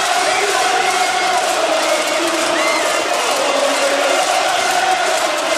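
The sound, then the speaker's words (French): Football crowd roaring after a late goal against Rennes that sends their team into the final, a loud, unbroken wall of cheering, whooping and shouting voices lasting several seconds. “Écoute le public.”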